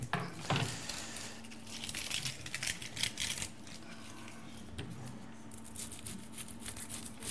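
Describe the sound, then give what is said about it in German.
A knife cutting an onion: a fairly faint, irregular run of crisp taps and crunchy crackles, with a steady low hum underneath and no voices. “So, ich fange jetzt mit der Zwiebel. Ich muss das schneiden.”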